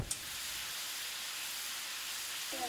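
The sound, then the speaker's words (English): A stove is fired up for cooking in a middle school family and consumer sciences class: a short click opens a steady, even hiss that carries on unbroken. “Now for our last origin story, we're going to need to fire up the stove.”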